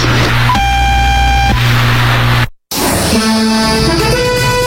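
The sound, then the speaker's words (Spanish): Time signal tone from a naval observatory in Caracas, Venezuela: a steady electronic tone with bright harmonics that holds for about a second. A brief dropout and rougher, noisier sound follow. “Al oír el tono serán las 19 horas, 0 minutos, 0 segundos.”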